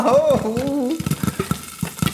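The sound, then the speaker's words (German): Homemade popcorn popping in a covered pot, kernels bursting into white popcorn: after a short voiced exclamation, a run of sharp, irregular pops sounds, several crisp bursts spaced unevenly over the last second. “Wann poppt denn der Popcorn endlich? Oh, es ploppt!”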